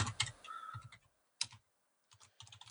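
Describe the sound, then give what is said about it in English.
Typing on a computer keyboard: quiet, irregular clusters of clicking keystrokes broken by a couple of short pauses. “I can't talk and type at the same time.”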